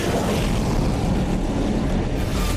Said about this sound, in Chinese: 歼四五起飞，拦截不明目标。